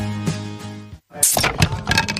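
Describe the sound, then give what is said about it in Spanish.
A table edge cracks and breaks as a liter bottle of beer is pried open against it: a sharp crack after a brief silence, then a few hard knocks and clatters, following a tonal passage. “Rompiste el borde de la mesa, pero había sed de Brahma.”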